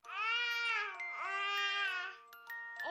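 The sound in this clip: A baby babbles alone against quiet: two long, high, tuneful vocal sounds with a wavering pitch, followed by a few shorter bursts.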